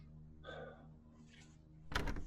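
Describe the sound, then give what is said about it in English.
Someone knocks on a hotel room door, a brief cluster of sharp raps near the end after a quiet stretch. “Well, he knocks on Dr. Richards' door, but obviously, Jasmine, you're in there.”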